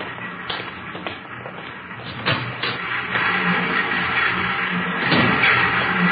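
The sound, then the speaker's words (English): Three new Ludlow typecasting machines running in a religious publication printing plant give a continuous mechanical clatter with irregular taps and knocks, fairly loud and steady throughout. “On your left there, those are three of our new Ludlow machines. Excellent mechanisms, needless to say.”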